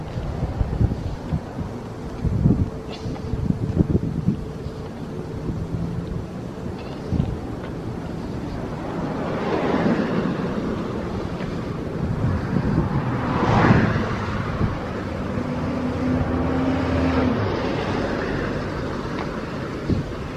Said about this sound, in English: Rain is definitely coming. It's cloudy overhead. Wind is blowing. Trees are shaking.